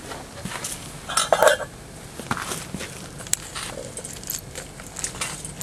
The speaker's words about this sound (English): So what we're going to do is we're going to scrape all that off and put it into that coffee can there, which is designed for this kind of waste.